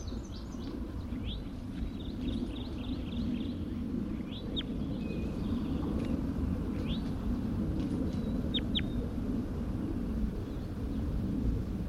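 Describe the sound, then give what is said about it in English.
Bird calls: short, high-pitched chirps repeated irregularly, faint over a steady low rumble. “Stop. Start recording bird 81.”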